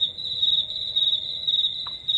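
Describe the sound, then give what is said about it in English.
Cricket chirping: a steady, high-pitched trill of rapid pulses that holds unbroken through the whole clip, alone with no voices. “Some cricket?”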